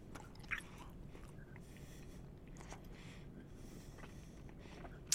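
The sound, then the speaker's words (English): Someone chomps while eating, a soft run of faint chewing and crunching, with a sharper bite near the start and another at the very end. “People are going to just hear me chomping and chomping.”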